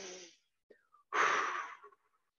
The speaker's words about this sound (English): breathing in through the nose and out through the mouth, and as long as your exhales are longer than your inhales